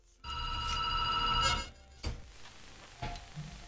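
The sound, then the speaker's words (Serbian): A telephone rings with an incoming call: one sustained electronic ring lasting about a second and a half, then a couple of faint clicks over quiet background hiss. “Evo imamo i poziv.”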